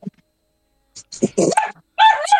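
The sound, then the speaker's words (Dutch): A dog barks and yips in a few short, sharp bursts, with voices mixed in around them. “Dat is een hond. Dat is een hond. Die wil naar het restaurant.”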